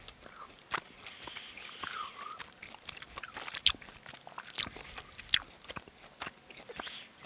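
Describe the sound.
Biting and chewing watermelon: fairly quiet wet crunching, with a few sharper, louder crunches around the middle of the chewing.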